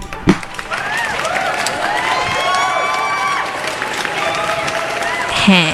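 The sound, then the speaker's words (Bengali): A crowd applauds steadily throughout, with cheering and shouting voices mixed into the dense clapping. The sound is loud and sustained, with a brief swell near the end. “আপনাদের প্রত্যেককে যেটা আমি দিতে পারি সেটা হচ্ছে এই অসাধারণ হাততালিটা।”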